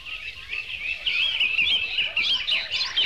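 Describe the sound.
Birds chirp and twitter continuously in a busy, high-pitched chorus, the birdsong forming the background of a recorded pop song.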